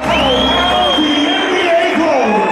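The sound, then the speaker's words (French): A crowd cheers at an NBA basketball game in the Accor Arena in Paris, a loud, continuous roar with high whoops and shouts rising above it. “ambiance à l'américaine, mais sur le parquet de l'Accor Arena de Bercy. Pour la quatrième fois, la salle parisienne accueille un match de NBA, une fête du basket”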